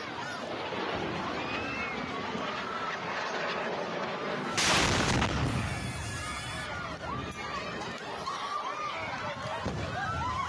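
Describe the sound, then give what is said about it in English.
A rocket explodes in a civilian area as one loud, broad blast midway through steady noise from a crowd, with overlapping voices and commotion throughout. “Here's what the video actually looks like when rockets are flying and you have 5 seconds to get your kids underground.”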